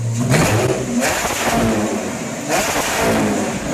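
A TSR model car engine revving as it runs after start-up: a loud, sustained roar that surges noticeably a couple of times.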